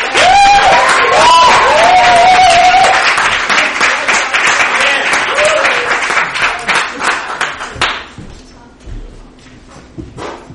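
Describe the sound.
An audience applauds and cheers to welcome a comedian onto the stage at a comedy show. The dense, loud clapping thins out and fades to near silence in the last couple of seconds.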